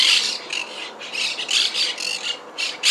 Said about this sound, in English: Monk parakeet sounds courtesy of the Macaulay Library at the Cornell Lab of Ornithology.